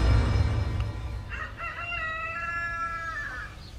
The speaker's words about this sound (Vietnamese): cũng là lúc tiếng gà trống đập cánh gáy vang sau nhà.